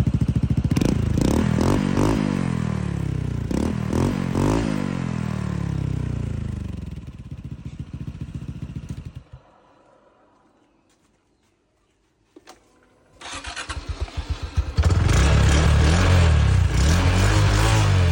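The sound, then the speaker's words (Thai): A Wave motorcycle engine revs through a stock exhaust fitted with two silencer plugs, at the tip and the neck: several loud rev surges rise and fall, then it settles and fades to near silence before the engine runs loudly again. “เดี๋ยววันนี้มาเทียบให้ดูค่ะเวฟท่อเดิมกับท่อใส่จุกลดเสียงตัวนี้ใส่2ชิ้นนะคะตรงปลายกับตรงคอ”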